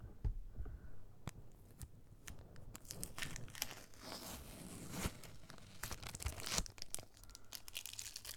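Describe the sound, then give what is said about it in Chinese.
A wrapper is torn open in a faint, continuous stream of crinkling and tearing rustles, with many sharp crackles scattered over several seconds and no voices. “给你撕开”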